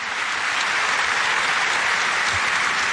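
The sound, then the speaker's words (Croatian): Studio audience applause for the team of the Croatian morning television show Dobro jutro Hrvatska, marking its 34th anniversary; dense, steady clapping holds at an even level throughout, with no voices over it. “ova naša mala emisica koja se zove Dobro jutro Hrvatska proslavila je 34 godine, pa dajte pljesak i njima.”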